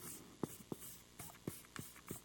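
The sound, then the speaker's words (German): Writing by hand as a speaker notes something down: scratchy strokes broken by a few sharp taps as the pen meets the surface, faint and spaced irregularly. “Und damit ihr euch das auch merken könnt, schreibe ich das hier auf.”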